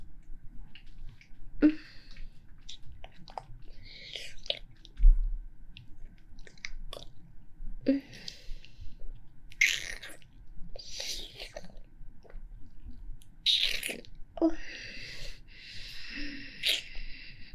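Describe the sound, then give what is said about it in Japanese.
Soft chewing and mouth sounds of someone tasting food, with several irregular, faint crunchy bursts separated by quiet gaps. “ダメ、我慢できない。味見させてください。”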